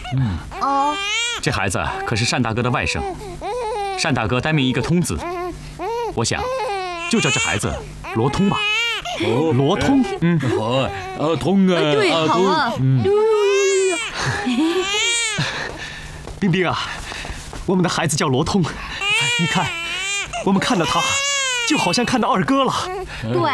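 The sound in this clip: A newborn baby cries in repeated wavering wails throughout, mixed with adults talking and exclaiming around it.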